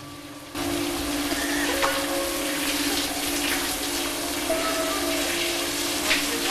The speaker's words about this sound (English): She steps into the showers